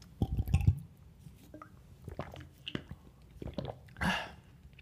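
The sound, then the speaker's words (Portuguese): Someone drinks a protein shake, with soft wet gulps, squishy swallowing and a faint slosh in a few quiet bursts, ending in a brief airy swig. “Vou aqui beber a minha protinha, acabar com ela, porque tenho que ir para o gym daqui. Em 5 minutos eu vou ter que me equipar e sair de casa. Espera aí, deixa-me só aqui beber.”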